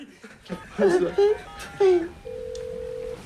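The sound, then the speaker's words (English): Mobile phone keypad tones as a number is dialed: after a few bursts of voices and laughter, one long steady electronic tone holds for about a second at moderate loudness. “then pulls out his mobile phone and dials.”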